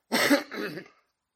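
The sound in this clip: A man clears his throat with two short, raspy bursts, the second one softer, and no talk is heard around it.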